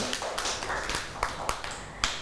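Scattered hand claps from young children applauding a classmate in class, quiet and irregular, a few separate sharp claps spread over the moment.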